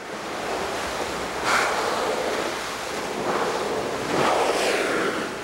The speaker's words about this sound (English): That was the sound of a whale spouting water as it surfaced.